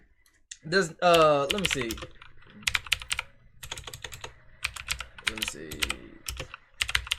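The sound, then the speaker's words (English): Live typing on a computer keyboard: many quick, irregular key clicks run throughout, with a person talking over the first couple of seconds and again briefly later. “And yes, you're hearing me type this shit live.”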